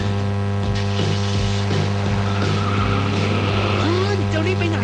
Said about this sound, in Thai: ทิ้งไว้ก่อนเดี๋ยวขึ้นไปเอาของออฟฟิศแป๊บนึง หยุดเลยสตาร์ทรถทิ้งไว้เปลืองน้ำมันนะ